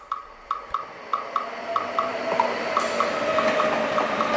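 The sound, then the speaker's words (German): A train pulling into Vienna's main station beats out a regular clickety-clack of many wheel clicks, which merges into a steady, broad rolling rail noise. “pünktlich mit der Zugeinfahrt im Wiener Hauptbahnhof fing es an, in Strömen zu regnen”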